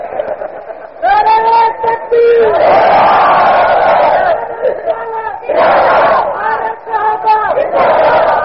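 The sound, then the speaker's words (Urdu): A crowd shouts a slogan chant in loud, sustained group bursts. A single voice comes before the first burst, and the crowd's shouting rises and drops back between two long waves of massed voices. “نعرہ لگا, یعنی جو جاگ رہا ہے وہ نعرہ لگا رہا ہے باقی سو رہے.”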